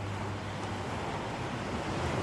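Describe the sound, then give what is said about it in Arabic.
Sea waves wash steadily onto the shore, making a faint, continuous rushing hiss with no distinct individual breakers. “كنت اتمنى تكون معاي هون تشوف البحر زي ما انا شايفه، وتسمع الموج زي ما انا سامعه.”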